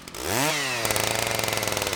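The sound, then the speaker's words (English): A chainsaw fires up beside a gravel road before cutting an enormous log. Its engine revs in a rising whine, then settles into a loud, steady buzzing drone with rapid rhythmic pulsing. “Near the end of a windy gravel road, Brent Cole Jr. fires up a chainsaw.”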